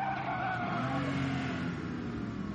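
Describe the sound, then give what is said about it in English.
Car tires skidding in one long, unbroken squeal that lasts the whole clip, loud and steady with a slightly wavering pitch and no voices. “Tire skid. It's like the longest accident.”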